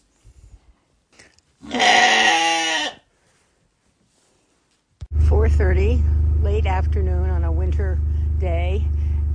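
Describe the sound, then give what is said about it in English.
A Gator utility vehicle drones steadily as it is driven up on a farm on a winter day with ice-coated trees. The engine starts after a brief animal bleat, and a person talks over the constant low hum. “I'm just driving up in the gator to see how things are going”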